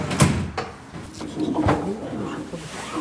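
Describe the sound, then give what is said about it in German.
A car tailgate is opened on a Munich funeral home's vehicle, giving a few dull clunks and knocks over a steady low background hum. “Die Heckklappe eines Wagens des Münchner Bestattungsunternehmens Akimi Urawa wird geöffnet”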